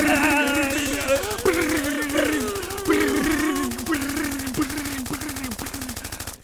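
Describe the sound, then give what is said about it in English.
Rapid machine-gun fire aimed at a house: a continuous fast rattle of shots lasting several seconds, with loud voices shouting over it throughout. “You were shooting the house.”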